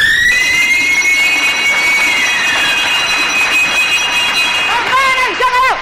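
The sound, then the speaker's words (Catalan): A bell rings to end a bingo round on the radio, a loud, sustained electric ringing with steady bright overtones lasting about five seconds. A voice then starts talking at the close. “Campana i s'acabó, roda la bola.”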